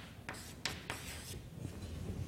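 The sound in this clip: A derivation is written out by hand, the notation continuing into the margin: a few faint, scratchy strokes with short pauses between them.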